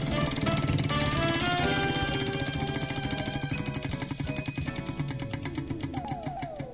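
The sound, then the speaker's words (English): A prize wheel spins with a rapid, steady stream of ratcheting clicks that carries on throughout, over a tonal music bed. “All right. Spinning the wheel.”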